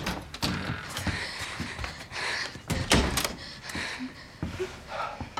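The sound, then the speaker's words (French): A door being opened in a film scene, with many sharp knocks, clunks and rattles spread irregularly over a few seconds, some hits louder than others, over a constant low noise. “Ouvrez-moi. Vous êtes normale ? À votre avis, ouvrez la porte.”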